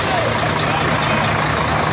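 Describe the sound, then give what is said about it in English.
A convoy of twenty trucks carrying humanitarian aid into the Gaza Strip produces a loud, continuous engine rumble and road roar that stays steady and unbroken throughout. “That's a convoy of 20 trucks carrying critical humanitarian aid into the Gaza Strip”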